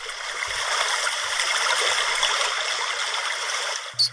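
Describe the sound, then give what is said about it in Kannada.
River water rushes in a steady, even wash as a frog swims through it, with a short, louder splash right at the end. “ಓಹೋ, ಕಪ್ಪೆ ಎಷ್ಟು ಚಂದ ನದಿಯೊಳಗ ಈಜ್ಲಿಕತ್ತೆದ. ಮತ್ತಲ್ದನ ನದಿ ಆಳಕ್ಕೆ ಜಿಗಿದು ಎಷ್ಟು ಚಂದ ಪುಟಿದ ಮೇಲೇಳಕತ್ತೆತಲ್ಲ.”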